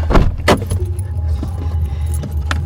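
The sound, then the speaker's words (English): A car being driven to a fashion show venue, with a steady low engine rumble throughout and a few sharp jangles of keys near the start. “picks me up and drives me to the venue.”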